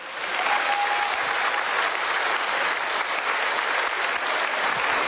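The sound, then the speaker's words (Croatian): Steady, sustained applause from an audience clapping for young performers, a dense even roar of many hands that continues alone without talk for the whole stretch. “Molim vas, pljesak za Paola Kaštelana, prije njega za Doru Bokulić.”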